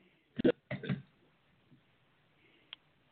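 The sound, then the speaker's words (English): Hiccups: a few short, voiced bursts come in quick succession, then after a quiet pause a single faint, sharp hiccup. “I got hiccups.”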